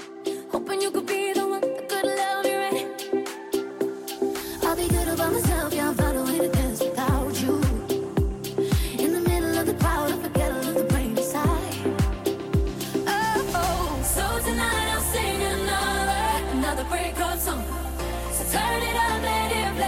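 A pop song remix played as interval-running workout music. A sparse intro gives way after a few seconds to a driving, thumping beat with strong regular kicks under layered synths and vocals, and the mix grows fuller toward the end.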